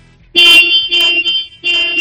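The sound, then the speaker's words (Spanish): A car horn honks loudly in a few short, bright bursts with brief gaps between them, and no other sound around them. “Dale tres veces a ese claxon”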